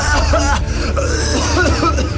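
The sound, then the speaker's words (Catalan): Sickly coughing from a person, loud and continuous for about two seconds, with a voiced, almost laugh-like quality. “No, que no riu, que està tossint malaltissament.”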